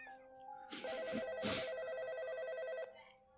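A telephone rings once with a sustained, bright, buzzy electronic ring of about two seconds, quiet and alone with no voices.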